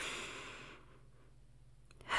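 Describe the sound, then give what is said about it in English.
Deep breathing, in and out, as someone calms down: a soft, airy breath fades into a quiet pause before another breath swells at the end, all faint and alone. “I need to calm down. Yeah, deep breathing. Deep breathing.”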